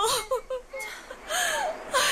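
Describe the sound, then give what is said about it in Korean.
A child crying in whimpering sobs, a few short broken cries followed by longer, louder wailing bursts. “울지마, 울지마. 그만 울어라니까. 그만 울어.”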